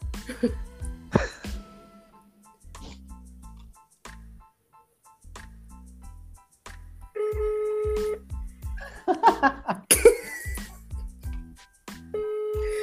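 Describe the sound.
Phone call being dialed again: steady electronic call tones and short beeps come through in several stretches, mixed with voices and other bursts of sound.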